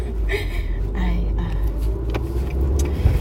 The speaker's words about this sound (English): I'm driving right now.